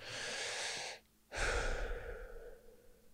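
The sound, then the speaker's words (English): A person takes a deep breath: a long, airy breath sound, a short silent pause, then a second, louder and fuller breath that slowly fades out. “Before the next one, I will take a deep breath.”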